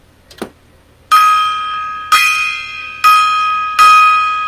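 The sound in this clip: A gong struck four times in a slow, steady series, each hit a loud, bright metallic clang that rings on and fades before the next; a brief soft knock comes before the first strike.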